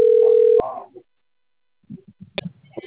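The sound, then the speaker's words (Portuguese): A telephone sounds with an incoming call: one loud, steady electronic tone lasting just over half a second, then silence and a few faint, muffled bursts. “Ah, estão te ligando.”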